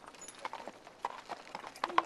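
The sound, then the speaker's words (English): Horse hooves clop beside a black horse-drawn buggy in Jamesport, Missouri, as a faint, irregular series of sharp knocks and scuffs, sometimes doubled, building to a few louder strikes near the end. “Here in Jamesport, Missouri, black horse-drawn buggies park right next to cars.”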